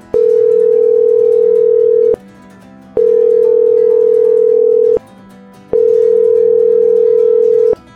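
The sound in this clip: Telephone tone while a call is placed: three long, steady beeps at one constant pitch, separated by short even gaps, clear and with no voices.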